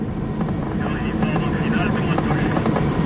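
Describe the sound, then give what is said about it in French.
A 180-horsepower Commodore tow plane drones at full power as it pulls a glider into the air, its engine a steady, continuous roar. “Le remorqueur Commodore rampe 2 secondes de plus. L'empennage frétillant, il rougit sous l'effort. Puis, Rouspéter, rageant de ses 180 chevaux, il lève son nez d'ivrogne et s'accroche dans le ciel.”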